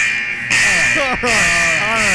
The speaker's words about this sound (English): Can we get a buzzer? Let's get a buzzer